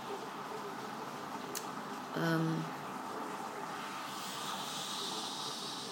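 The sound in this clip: A Tassimo coffee machine brewing gives off a soft, steady hiss of steam, joined partway through by a brief low humming tone that swells and then fades.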